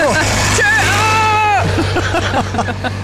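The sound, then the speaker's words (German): Steady low engine drone of a tiny, narrow vineyard tractor heading straight toward the listeners, rumbling continuously under an ongoing conversation. “Jetzt kommt einer von diesen winzigen Weinbergtraktoren auf uns zu. Direkt auf uns zu, er kommt direkt auf uns zu.”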